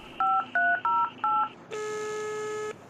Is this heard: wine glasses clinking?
no